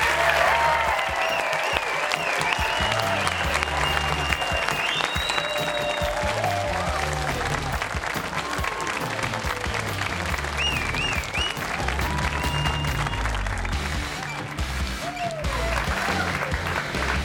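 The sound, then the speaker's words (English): Standing ovation from a studio audience for a returning basketball player at Studio C, loud sustained clapping throughout with shouts and whoops rising above it. “not everyone gets a standing ovation coming in the building. That was pretty good.”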